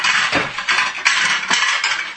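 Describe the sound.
Small plates being handled while serving pizza, a busy, continuous clatter of knocks and scrapes with a few sharper clinks, loud throughout.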